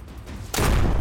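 A gunshot fires at a rat in a turn-based video game: after a quiet stretch of low background sound, a single loud, broad burst cuts in and booms on until the end.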